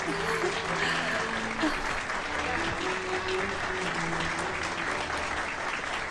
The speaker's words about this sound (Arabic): رجاء صفق لها.